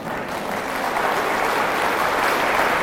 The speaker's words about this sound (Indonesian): Siapa yang paling kuat tepuk tangannya?